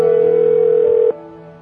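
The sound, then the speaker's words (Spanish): A telephone tone from a call being placed: one steady, mid-pitched tone holds for about a second, then cuts off, leaving a quieter low hum. “Vi un número telefónico y lo empecé a marcar. Me senté en el suelo y esperé a que la llamada comenzara.”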